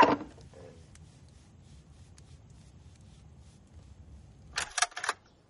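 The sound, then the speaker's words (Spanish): A telephone receiver is hung up: a short cluster of a few hard plastic clacks and rattles, heard after a long, nearly silent pause. “Descuelga de nuevo el teléfono. Cuelga.”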